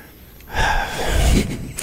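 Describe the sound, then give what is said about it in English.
One big gasping breath: a loud, rushing inhale that swells suddenly, holds for about a second, then fades away. “It's a big breath. You're really good at that.”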